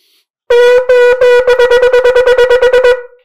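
Loud shofar blasts sound shevarim-teruah in one breath: three medium-length broken notes, then a rapid string of many short staccato bursts. The notes stay at one bright, buzzing pitch.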